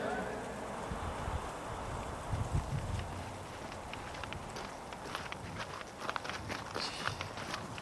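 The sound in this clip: Footsteps of hikers walking a trail on the fourth stage of a multi-day trek, a steady, continuous crunching tread that is fairly faint under a broad wash of outdoor noise.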